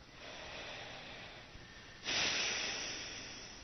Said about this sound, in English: Take a few deep breaths. Really let the breath fill the whole body.